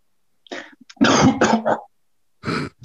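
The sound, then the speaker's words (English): Harsh throat clearing and phlegmy coughing: a short rasp, then a longer, loud hacking burst, and after a pause a final rough clear. No talk runs under it. “do you want to see the phlegm that I'm about to cough up?”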